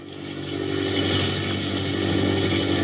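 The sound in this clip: Airplane engine droning in flight after takeoff, heard from the cockpit during a climb to 3,000 feet; a loud, dense, even roar that swells in the first half second and then holds steady.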